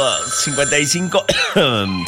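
Telephone ringing for an incoming call at a radio station, a bright electronic ring with sustained tones woven into a busy, melodic mix for a couple of seconds.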